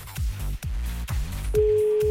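A telephone ringback tone, a steady single-pitched hum, starts near the end of the call being placed and sounds over a thumping, rhythmic music beat.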